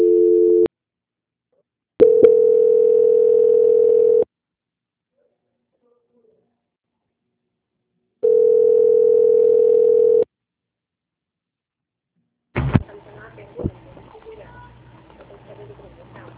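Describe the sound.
Ringback tones during a telephone call transfer: a clipped buzzy tone, then two steady two-second tones separated by long silent gaps, after which a line clicks open and voices begin talking.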